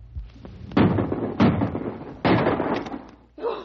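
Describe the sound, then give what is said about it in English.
Rifle shots fired at a charging grizzly bear: several loud, heavy bangs spaced apart, each with a rough, ringing decay, followed by a softer final burst. “Now, blast him! Shoot, Corey, shoot! That guy's got ice in his blood. The bear's gonna charge. He's got his big yap open, boy! Empty your rifle right into it!”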